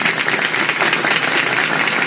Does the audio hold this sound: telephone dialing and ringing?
no